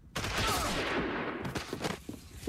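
Gunfire in a film scene where two militia fighters shoot a man down in a corridor: a sudden dense volley of shots rolls on for over a second, then a few scattered cracks trail off.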